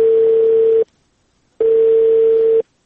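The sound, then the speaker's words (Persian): Telephone disconnect tone after a call is cut off: two loud, even electronic beeps, each about a second long, separated by a short silence, heard alone without talk. “تلفون قطع شد.”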